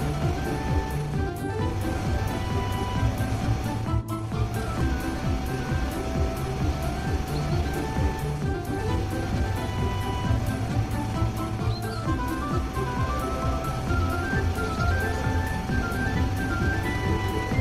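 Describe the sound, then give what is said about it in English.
A sweeper vehicle with round spinning brushes cleans garbage off a freshly finished track, making a steady, loud whirring drone with a continuous tonal hum and brushy rustle. It runs unbroken, with no voices. “The track is ready. Now, let's clean it and remove the garbage. The sweeper will do it.”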